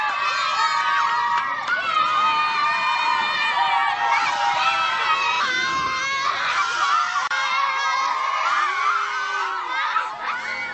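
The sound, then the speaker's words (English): Many children shout and cheer in a hearty, cheerful welcome at Lesalu for a mission building's opening. The bright, high-pitched voices form a loud, continuous, excited din that lasts throughout. “The children at Lesalu certainly know how to give a hearty, cheerful welcome.”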